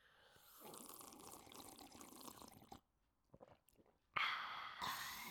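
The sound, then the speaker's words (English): Coffee being drunk in a close-up ASMR setting: two stretches of wet, noisy slurping separated by a quieter gap with scattered small mouth clicks and swallows. “This is ASMR. I'm drinking coffee.”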